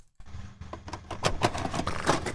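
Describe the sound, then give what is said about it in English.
Plastic clicks and clunks of a video tape being pushed into a player, a quick series of small mechanical knocks over a low steady hum, with no voices. “Putting in the tape. This must be a tape that we recorded off of the TV.”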